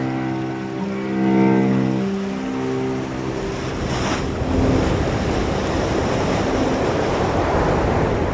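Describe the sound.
Sea waves at the seaside wash in a continuous, broad rushing hiss. The surf grows denser and more prominent in the second half.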